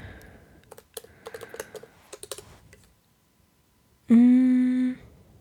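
Typing on a computer keyboard for a Google search gives a quick, irregular run of light key clicks. After a short pause, a loud sustained harmonic tone follows.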